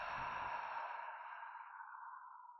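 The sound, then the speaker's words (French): One slow, soft breath during a guided meditation, a gentle airy exhale that thins out and fades away. “Inspire. Expire.”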